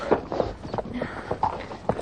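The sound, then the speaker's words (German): Horse hoofbeats on soft, mossy forest ground: many muffled, uneven thuds in a walking rhythm, fairly soft and dull rather than sharp clip-clops. “Kaum, dass man den Hufschlag der Pferde vernahm.”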